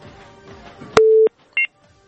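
Telephone line tones after a call was cut off: a steady low beep of about a third of a second, then a brief, higher dual-pitched blip. Faint background noise sits between them, with no talk.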